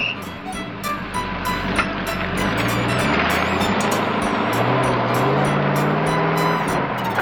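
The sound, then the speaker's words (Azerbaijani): A school bus pulling away from a stop to take children to school, its engine giving a loud, steady rumble that holds throughout with no break. “Bu vaxt uşaqları məktəbə aparan avtobus yerindən tərpəndi.”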